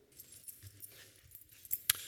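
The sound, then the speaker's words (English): Mazda car keys jangle faintly in a few soft metallic clinks, with one sharper, brighter clink near the end. “Got some Mazda keys here.”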